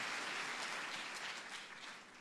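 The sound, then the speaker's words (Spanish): Church audience applauding during a sermon, a dense, bright burst of many hands clapping together that holds steady and then tapers off near the end. “Si alguien cree que esta palabra le habla, que se escuche ese aplauso. Si ese aplauso es porque Dios sella con su Espíritu lo que acabo de decir.”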